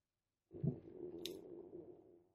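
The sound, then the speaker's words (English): A person's stomach rumbling: a low gurgling growl lasting nearly two seconds. It opens with a sharper burst, holds steady with a brief high click midway, then fades out. “That was my stomach, if anyone heard that.”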